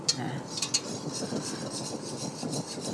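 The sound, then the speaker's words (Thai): Stirring sounds from herbal balm ingredients, including camphor, borneol and menthol, being stirred until they melt into a clear liquid: a continuous scraping and rubbing with a few light clinks of a utensil against the container. “ได้แล้ว ตอนนี้เราคนจนละลายกลายเป็นของเหลวทั้งหมดแล้วนะคะ แล้วก็ใสนะคะ”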